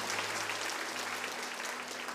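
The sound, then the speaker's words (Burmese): Applause fills a church during a Sunday sermon: a dense, steady wash of many hands clapping at an even level throughout, with a low hum underneath. “လက်ခုပ်တီးလက်ဖျားကိုချီးမွမ်းကိုပြုကြရအောင်”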